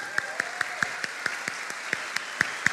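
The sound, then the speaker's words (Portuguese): Audience applause for a contestant's mother: clear, evenly spaced claps in a steady rhythm, fairly faint and without voices. “Aí, fique de pé que a gente quer aplaudir a mamãe,”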